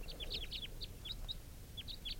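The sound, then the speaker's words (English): A male bird calls repeatedly in short, high, thin chirps, some in quick clusters and others spaced apart, fairly faint over a steady low background rumble; no voices. “I have no idea, no way of knowing for sure whether this was the same bird calling before.”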